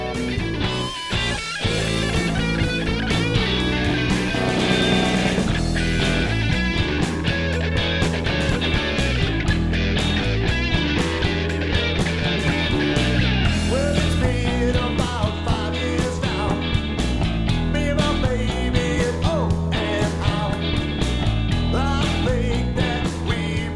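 A bluesy song plays with full band instrumentation, steady and loud throughout, with no talking.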